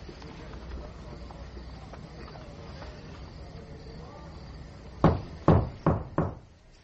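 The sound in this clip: Four sharp knocks on a wall behind a bed land in quick, evenly spaced succession near the end, each with a short decay, following several seconds of low, murmuring background noise.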